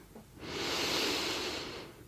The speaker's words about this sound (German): Atme noch einmal tief ein in die Nase